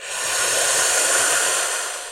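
A long, forceful exhale during a breathing exercise, released through the open mouth as a steady breathy hiss that swells slightly and then eases over about two seconds.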